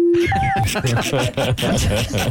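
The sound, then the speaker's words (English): Censor bleeps cut into speech: a brief low steady tone, then a short higher-pitched one. Talking carries on right after them and continues to the end. “We are running out of beeps. Yeah, we are. We don't have an unlimited amount.”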